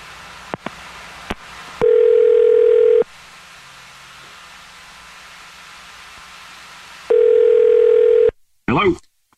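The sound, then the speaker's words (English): An outgoing telephone call gives two long, steady, low-pitched ringback tones, each about a second long, separated by a long quiet pause. A few faint clicks come before them, and a brief voice cuts in at the end. “we're about to call him right now and see if we can figure it out for you”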